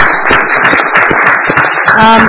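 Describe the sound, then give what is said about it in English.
Loud applause at a city council meeting following a disability-rights award announcement, with dense overlapping claps and some voices mixed in throughout. “I think that deserves a huge round of applause.”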